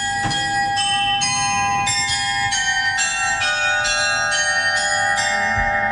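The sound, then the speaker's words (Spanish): Bell chimes of a medieval astronomical clock inside Münster cathedral ring in a steady series of many clear, bright strikes, each tone sustaining and overlapping the next, with no voices. “Así que lo grabé yo este sonido en la catedral de Munster, en el interior, que guarda un precioso reloj astronómico medieval.”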